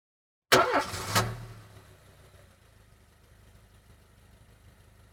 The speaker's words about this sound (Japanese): 車です。